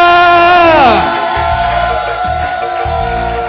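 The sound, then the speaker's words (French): An audience at an evening religious gathering shouts and cheers with joy. A sustained tone slides downward, then a loud, dense roar of massed voices carries on steadily to the end. “Si tu es prêt, tu es excité ce soir, pousse des cris de joie alors que nous recevons Sista Simon Pierre Ademola.”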